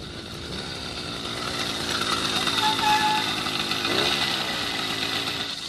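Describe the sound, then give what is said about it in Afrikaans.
Engine of a welded motorcycle built from chains for Afrikaburn, running with a loud, steady, rough rumble that swells slightly through the middle and holds without pause. “as jy kan afskakel, dat ek 'n bietjie met jou kan gesels. Hier is 'n motorfiets wat van kettings aan mekaar gesit is”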